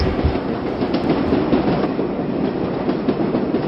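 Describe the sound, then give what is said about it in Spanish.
Subway train running along the tracks as it comes into a station: a dense, steady rumble with a rushing, rattling wheel noise and faint rhythmic clacking, loud throughout with no voices. “Estaba inconsciente cuando el tren llegó a Jay Street.”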